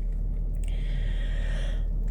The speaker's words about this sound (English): even that deep breath. I know I always say it, but even that deep breath makes such a difference.